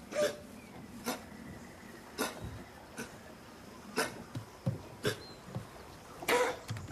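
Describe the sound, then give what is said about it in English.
A cat retches while coughing up a hairball, a faint series of many short, sharp hacking bursts at irregular intervals, with a closer cluster near the end. “Cat approaches. It retches.”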